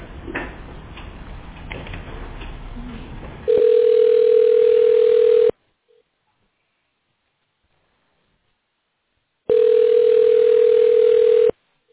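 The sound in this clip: A steady telephone line tone plays while a customer-service call is being transferred. Two long, even beeps of the same mid pitch are separated by silence, with muffled talk and line noise before the first.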